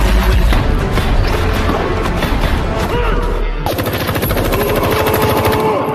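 Rapid machine-gun fire from movie scenes rattles loudly and without pause, with dense bursts of shots throughout.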